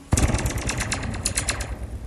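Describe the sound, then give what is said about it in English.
A taut wire fence is struck, giving the springy, zinging ring used for the Star Wars blaster sound effect. A sharp initial hit is followed by many rapid, pulsing reverberations that slowly fade. “Do you know this is how they made the sound effect for the blaster guns in the Star Wars movies back in the 1970s? With the fences, right?”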